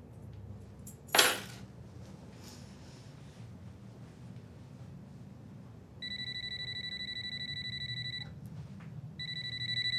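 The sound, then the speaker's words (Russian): Mobile phone ringing with a bright, repeating electronic tone that starts partway through, stops briefly, then resumes, heard after an earlier sharp clatter against a faint low background hum. “Ей звонит мобильный.”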